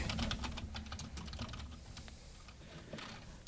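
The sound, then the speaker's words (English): Rapid typing on a computer keyboard to enter a chat message during a strategy game: a steady, faint stream of key clicks that ends with one sharper click. “You type that in. What I typed in is has advanced to the feudal age or castle age.”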